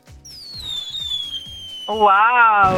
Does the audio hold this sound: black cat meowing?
no